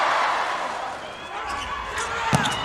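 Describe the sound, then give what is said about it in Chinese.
A volleyball serve is struck during a Japan versus Iran volleyball match. A single sharp hit lands near the end over steady crowd noise, with a voice talking. “大冢大宣的发球，”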